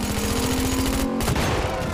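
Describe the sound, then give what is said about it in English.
Rapid gunfire from pursuers strikes a shining Aston Martin during a car chase past traffic, bullets peppering its windows. The shots come as a dense, continuous barrage of loud cracks over a steady rumble, with no gaps and no talk. “He guns his shining Aston Martin past a line of traffic as his pursuers open up. Bullet holes pepper the Aston's windows.”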